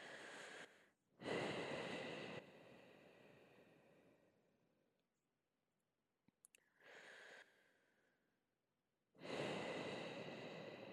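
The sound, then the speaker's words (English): Slow, deep breaths taken during a guided breathing exercise: long airy inhales and exhales that swell and fade, separated by near-silent pauses, alone and without any voice. “Now, we're going to start controlling our breath. Three deep breaths. Please start.”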